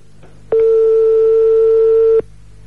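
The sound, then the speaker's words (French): A telephone ringback tone sounds on a live radio phone call: one loud, continuous steady pitch lasting nearly two seconds that starts and stops abruptly over a faint low hum. “Ça sonne.”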